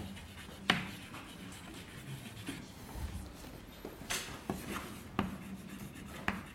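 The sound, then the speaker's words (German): Writing on a board during a mathematics lecture: faint, continuous scratchy strokes broken by a few sharper taps and clicks, with no talk over them. “Ich schreibe es nochmal hinter.”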